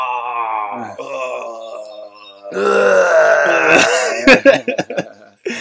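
A man groans and vocalizes on purpose, imitating groaning. A low, sustained groan is followed by a louder, drawn-out moaning cry, then a run of short, choppy grunts and guttural bursts.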